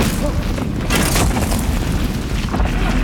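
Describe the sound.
An underground blast in a mine: deep, thunder-like booms and heavy rumbling, loud throughout and swelling into a stronger surge partway through.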